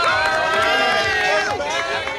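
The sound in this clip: Cheering and a dense crowd of voices as staff and volunteers welcome students arriving at Spate Elementary on the first day of the school year. The clamour is loud, continuous and overlapping, with no pause throughout.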